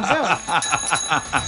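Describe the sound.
A small hand bell rings rapidly in a steady string of bright metallic strokes, with a sustained high ringing tone beneath them, fairly loud and with no talking.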